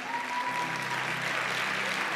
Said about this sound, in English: If you haven't stood up yet, you can still stand because we got more claps.